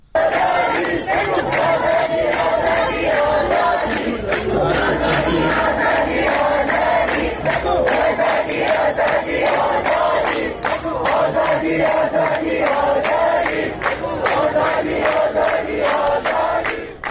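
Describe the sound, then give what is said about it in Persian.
Crowd of protesters chanting slogans, loud massed voices shouting in unison with a rhythmic, continuous pulse and no break. “هم دارن شعار میدن که هر 1 نفر کشته شه 1000 نفر پشته شه.”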